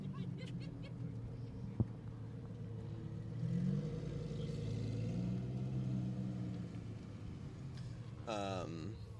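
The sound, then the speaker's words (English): A stock Lamborghini Huracan supercar's engine rumbles at a cars and coffee meet, a low steady growl that swells louder partway through, with people talking around it. “That is what a completely stock standard Lamborghini Huracan sounds like.”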